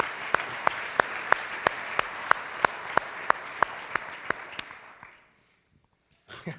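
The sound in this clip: Audience applause welcoming a speaker onto a stage: dense clapping with a steady, regular beat of sharper claps running through it, tapering off after about five seconds into near silence before a faint sound at the end.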